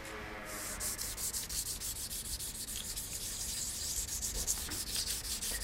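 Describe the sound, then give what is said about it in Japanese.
Sandpaper polishes Edo ivory, a Tokyo traditional craft piece, after filing: many rapid, rhythmic rubbing strokes make a continuous gritty scratching that stays fairly even throughout. “昔は無垢の葉でヤスリ木ゃぎっていう段階をやっていったんですが現在はまあヤスリでやった後おペーパーで磨くっていうのが常識になってます。”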